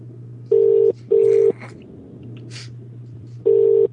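Ringing tone on the line of an outgoing call placed through an internet calling service: a pair of short, steady beeps, a pause, then one more beep starting the next pair, all over a low hum.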